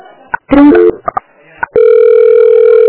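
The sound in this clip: A telephone call is placed: a few short dialing beeps, then a loud, steady ringing tone that holds without a break to the end.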